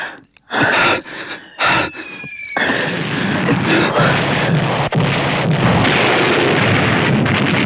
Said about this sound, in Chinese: 炮火更加密集，有高射机枪的粗重射击。